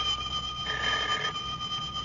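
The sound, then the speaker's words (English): A telephone bell rings at a grocery, a continuous metallic trill that carries steadily through the whole stretch at moderate loudness, with no talk over it. “a feller can't sit down for 5 minutes without that dad-blamed telephone ringing”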